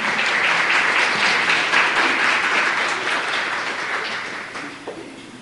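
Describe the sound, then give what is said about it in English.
An audience applauds as a speaker is welcomed, with dense, steady clapping that stays loud before gradually thinning and fading toward the end. “So let's put our hands together and welcome Judy Hodges.”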